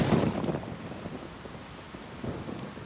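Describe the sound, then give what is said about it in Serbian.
Downpour of rain on a street, a dense, steady hiss of falling drops that is loudest at the start and then holds evenly. “Pljusak vas zatiče na ulici sa tek sređenom frizurom.”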